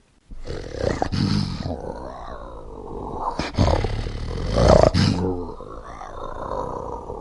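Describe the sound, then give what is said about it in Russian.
A lion roars in a few long, deep, rasping bursts that swell and fade, with grunting growls between them, loud and continuous throughout. “Итак, лев, пожалуйста.”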